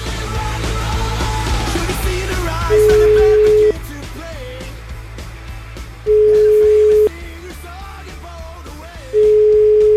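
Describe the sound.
Ringback tone of an outgoing telephone call placed in Italy: three long, steady, mid-pitched tones separated by pauses of a couple of seconds, each loud and even, over a busy, noisy background.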